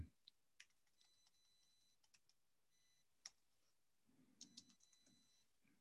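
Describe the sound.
Typing on a computer keyboard: many faint, sharp keystroke clicks in an uneven rhythm, sometimes single and sometimes in quick bursts, with a few duller thumps near the end.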